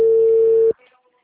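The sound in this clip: A ringback tone on a telephone call sounds as one steady, mid-pitched electronic tone lasting under a second, then cuts off abruptly into faint background noise.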